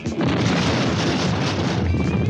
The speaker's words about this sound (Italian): C'è stata la bomba!